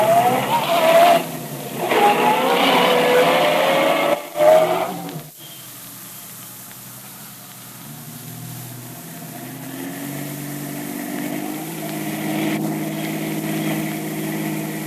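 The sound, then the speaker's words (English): A taxi cab engine labours through heavy traffic, its whine rising in pitch, then drops abruptly to a lower, quieter idling rumble as the cab pulls up to the curb. “Hey, that cab's pulling up to the curb.”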